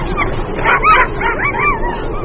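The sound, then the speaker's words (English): Sled dogs on a polar ice patrol barking and yipping, several high, overlapping calls rising above a constant rough background noise. “The dogs can sleep outside no matter how cold it gets.”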